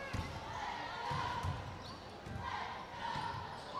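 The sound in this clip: A basketball is dribbled on the court in a boys' high school game, giving low, rhythmic thumps at an uneven pace under a commentator's fast play-by-play.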